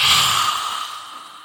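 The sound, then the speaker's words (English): A deep breath drawn in through the nose during a breathing exercise, a single soft, airy hiss that is strongest at the start and gradually fades, with no talk. “So we're taking in a deep breath through the nose”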